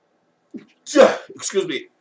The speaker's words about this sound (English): I had to sneeze.